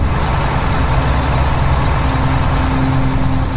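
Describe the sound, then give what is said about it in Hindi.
Bus engine as the driver speeds the bus up: a loud, steady, dense low roar with a faint engine tone emerging partway through. No voices. “लेकिन फिर कुछ देर बाद ही उसने फिर से बस की रफ्तार बढ़ा दी”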